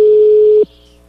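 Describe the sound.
Ringback tone of a telephone call ringing unanswered: one steady mid-pitched tone holding for just over half a second, then cutting off abruptly to near silence with a faint hum.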